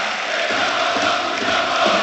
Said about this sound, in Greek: Χειροκροτεί ο κόσμος του Παναθηναϊκού, αλλά δεν είναι καλή εικόνα του Παναθηναϊκού στην τελική ευθεία του μηχρόνου και στις αρχές της περίοδου.